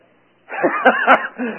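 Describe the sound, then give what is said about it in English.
A person clears their throat with a short, loud, voiced rasp made of a few rough pulses. It follows a brief silence and carries on alone for about a second. “we have to clear our throat on it”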